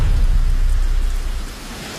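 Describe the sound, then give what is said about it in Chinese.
Steady light rain falls in a forest, a dense even hiss with a low rumbling undertone that eases slightly toward the end, with no voices. “此时的风已经停了，可雨还在下着”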